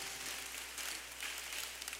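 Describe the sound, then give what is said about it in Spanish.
Applause from a church audience during a worship service: steady, dense clapping held at an even, fairly quiet level throughout, with no voices heard. “Denme un fuerte aplauso al Señor.”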